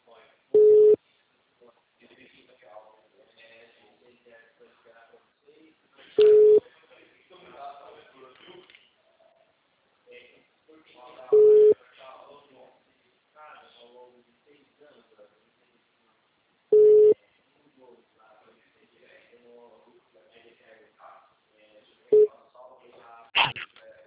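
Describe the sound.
A telephone tone follows a dropped call: five short, steady beeps sound at even intervals, with a voice talking quietly between them.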